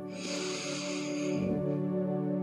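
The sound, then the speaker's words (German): A deep breath drawn in slowly into the belly during a guided relaxation, a smooth airy inhale lasting about a second and a half over a soft sustained musical drone. “Hierfür nehme ich einen tiefen Atemzug in meinen Bauch hinein”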